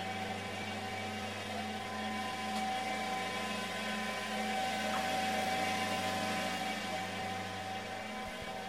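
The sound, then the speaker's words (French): A textile combing machine runs in a spinning mill as slivers pass through it, producing a continuous, even mechanical drone with a steady tonal hum that holds unchanged throughout. “on va faire traverser les rubans dans la machine. Et donc on passe d'un ruban à un ruban, il est juste mieux peigné en traversant la machine.”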